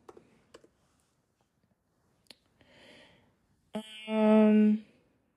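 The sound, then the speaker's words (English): Typing on a computer keyboard: a few sparse, sharp clicks at the start and one more isolated tap, followed by a brief hummed voice sound. “And I was just going to type her name in here real quick.”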